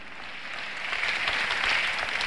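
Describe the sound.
A church audience applauds during a sermon: a dense, steady wash of clapping that swells slightly in the second half, with no voices over it.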